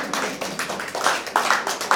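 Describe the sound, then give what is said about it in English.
A church audience claps during an Easter service, giving itself a round of applause: a series of separate, uneven claps in loose bursts rather than a dense roar, moderately loud, with no talk over them. “I think you should give yourselves a clap for that,”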